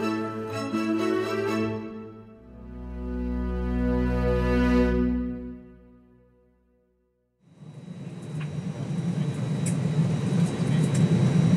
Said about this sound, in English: Ladies and gentlemen, we have just landed at Yangon International Airport.